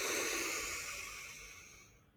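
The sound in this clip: Deep inhale during a guided breathing exercise: a steady, airy hiss of drawn breath that slowly fades over about two seconds, with no talk.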